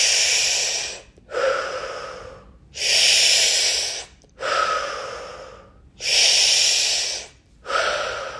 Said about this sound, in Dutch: Adem twee keer in via je neus. En uit via je neus. Nog een keer in. Uit. Adem in.